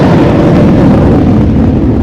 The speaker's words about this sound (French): Là d'ailleurs, c'est un Mirage 2000 qui décolle.